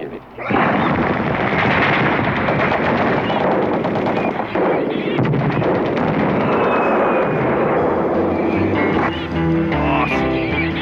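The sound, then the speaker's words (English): Heavy gunfire from several weapons during a military training drill: a dense, continuous, loud barrage of overlapping shots and rumbling blasts that carries on throughout, with a voice heard near the end. “Open fire, you maggots. Open fire.”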